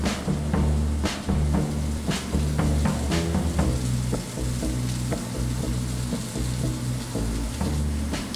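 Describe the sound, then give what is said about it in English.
Mushrooms fry in a single layer in a hot pan with a steady, continuous sizzle and crackle, sprinkled with sharper pops throughout. “So once our edges are starting to brown, we'll give it a quick toss, and then we'll let that side brown, maybe arranging the mushrooms just a little bit back into that single layer if we need to.”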